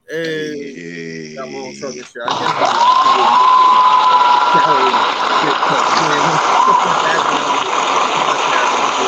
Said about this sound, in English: them loud ass claps